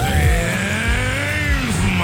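Car engine sound effect from a radio contest ad offering a gasoline prize: a steady, loud mechanical drone whose harmonic pitch shifts slightly up and down throughout, with no voices over it.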